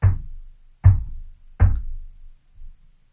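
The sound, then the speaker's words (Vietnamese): Knocking in a group of three: three loud, dull, low thuds at an even pace, each with a short fading tail, followed after a pause by a much fainter fourth tap. No voices. “tôi mô tả cái tiếng gõ cho anh chị em nghe. Dừng. Gõ 3 tiếng thế dừng. Dừng khoảng tầm khoảng 5 giây sau lại.”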